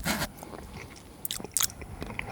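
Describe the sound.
Someone bites into and chews a praline with a green filling, making crisp crunching bites and softer wet chewing, with a few sharp bursts standing out above a quiet background.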